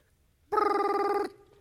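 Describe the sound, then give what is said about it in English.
A telephone rings once as a call is placed: a single bright, buzzy electronic tone rich in harmonics holds steady for under a second, then cuts off abruptly, leaving faint background hiss. “And so I dial the digits, put the phone up to my ear. It's good, it's ringing.”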